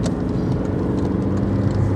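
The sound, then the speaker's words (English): Car engine and road noise while overtaking a slow transit van on a commute to work, a steady low rumble beneath broad road roar that holds fairly even throughout. “I'm doing an overtake that I probably shouldn't. There we go.”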